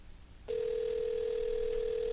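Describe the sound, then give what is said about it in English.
A telephone dial tone heard while placing a call starts abruptly after a brief quiet moment and holds as one steady, unbroken pitch until the end. “As soon as I dialed his number.”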